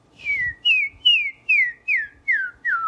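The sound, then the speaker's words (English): A person whistles through the lips, seven short, clear notes in an even rhythm, each sliding downward in pitch, with no talking. “if you want to practice whistling, just try making little tiny sounds.”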